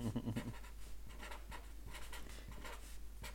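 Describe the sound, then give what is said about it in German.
A pen writing on paper, a string of short, soft scratchy strokes in an uneven rhythm, quiet and alone over a faint steady hum. “So, schreibe es jetzt nieder.”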